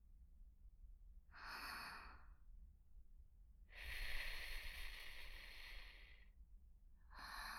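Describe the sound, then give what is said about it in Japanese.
Breath is blown out in soft, airy puffs: a short puff, then a long sustained exhale, then the start of a third, each one hissy and breathy with no talking. “息を吹きかけてみますね。”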